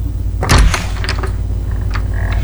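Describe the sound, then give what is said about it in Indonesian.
A door being opened: a dull thump, then a few light creaks and rattles over a steady low hum. “Iya sayang, buka saja pintunya, tidak dikunci kok.”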